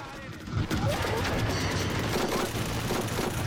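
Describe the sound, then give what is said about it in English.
A machine gun returning fire at figures on a clifftop: a dense, continuous roar of rapid gunfire that holds steady and loud throughout. “The soldiers fire back, but Peter huddles down as low as he can. Keep your head down! The machine gunner returns fire at the silhouettes on the clifftop.”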